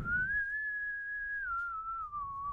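One long whistle note is blown and held for about two and a half seconds, a clear, fairly high tone that rises slightly at the start, stays level, then dips a little toward the end. It sounds fairly quiet.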